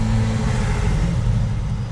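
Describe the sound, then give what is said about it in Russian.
Steady low engine rumble of a car moving slowly along a street, a continuous deep drone with no clear gear changes and no voices. “так вот и едем. Я не могу сказать, что мы именно едем, но мы так, можно сказать, движемся не спеша.”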